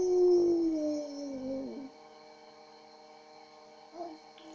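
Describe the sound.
A voice imitates a wolf howl with a drawn-out tone that slides downward in pitch and trails off, leaving a low steady hum, then a brief short vocal sound near the end.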